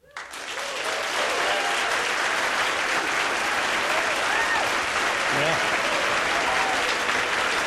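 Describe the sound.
An audience applauds to welcome a guest onstage. Steady, full clapping starts almost at once and holds evenly to the end, with a few faint voices rising over it.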